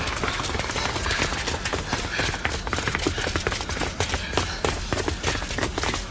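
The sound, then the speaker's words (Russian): Running footsteps of children racing down a street, a rapid, continuous patter of many steps at an even, brisk pace, fairly loud and with no talking. “Ребята бегут по улице.”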